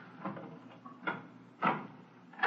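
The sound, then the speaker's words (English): A door is opened in an office with a few short wooden clunks and scrapes spaced out over a couple of seconds. The final knock is the loudest, and no voices are heard. “Open the door.”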